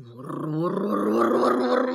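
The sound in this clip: A growl voiced by a narrator as Tigger, the tiger in a Russian Winnie-the-Pooh audiobook: a low, rough, wordless rumble that swells in the first half-second and then holds steady for about two seconds.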